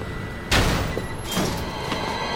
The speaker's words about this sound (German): Er sagt runter und er schießt halt hinter ihr einen Zombie.